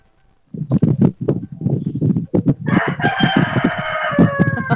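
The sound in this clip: A rooster crowing loudly in one long, drawn-out call after a run of short, throaty clucks.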